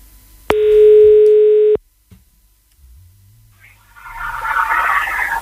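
A telephone dial tone sounds while a radio listener is being called: one steady, loud, even tone lasting just over a second, then near silence and faint rising line noise.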